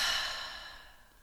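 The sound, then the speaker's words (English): A slow, deep exhale out through the mouth, a soft breathy sigh that fades steadily over about a second with nothing else around it. “just to take a nice big deep breath in through your nose and out through your mouth,”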